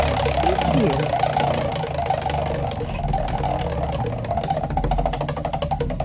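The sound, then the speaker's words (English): A prize wheel spins with rapid ticking clicks over a steady low drone, and the ticks sound sharper and more distinct toward the end. “Hey, let's spin that wheel for you”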